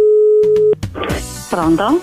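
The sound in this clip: A telephone tone sounds while a call is being placed, holding one steady, even pitch for under a second before cutting off abruptly, followed by a voice speaking.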